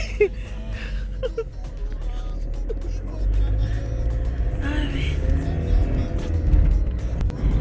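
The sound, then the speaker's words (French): A van engine starts up from inside the cab, a low rumble that swells noticeably louder partway through and keeps running as the vehicle drives on. “Et nous voilà dans la camionnette à Sana et on va démarrer.”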